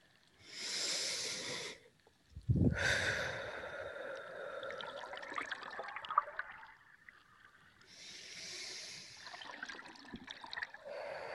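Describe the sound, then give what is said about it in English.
Slow, deep breaths in and out during a guided relaxation exercise, heard as a few long, soft airy rushes separated by short pauses, with no talking over them. “just start to take in a few deep breaths in and out”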